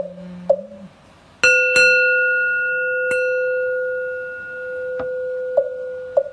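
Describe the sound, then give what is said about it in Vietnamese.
A temple bell struck during a Buddhist chant rings out loudly with a bright, sustained tone that hums on for several seconds, followed by a few lighter taps. A faint low voice is heard just before the strike. “chuông từ vọng mấy tầng lao ngục”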